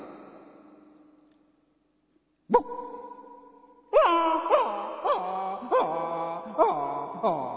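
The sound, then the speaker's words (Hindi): A human voice imitates a dog crying after being hit by a stone. A long held whine comes first, then a series of loud, high whimpering yelps, each falling in pitch. “कुत्ते का रोना, जैसे कुत्ते को हम पत्थर मारते”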